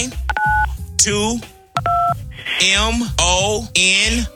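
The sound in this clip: Telephone keypad tones enter a key code during a call-in contest. Two clear dual-tone beeps sound, one early and one midway, between stretches of people talking.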